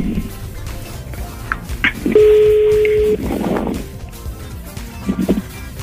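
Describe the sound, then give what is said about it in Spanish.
A telephone tone sounds while a number is redialed: one steady, medium-pitched electronic beep held for about a second, with faint background noise and brief low murmurs around it. “Ok, le estoy marcando nuevamente.”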